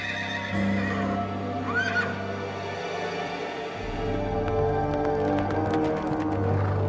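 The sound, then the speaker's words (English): A horse whinnies, then its hoofbeats draw closer from outside in a steady, rapid clip-clop. The hoofbeats build and keep going to the end over a low rumble. “Sieglinde had gone stiff, the color draining from her cheeks as the hoofbeats of a horse drew closer from outside.”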